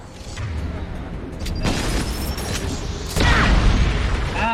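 Sniper rifle shots ring out in a shooter video game. A few sharp, booming cracks punch through a dense, noisy bed of game sound.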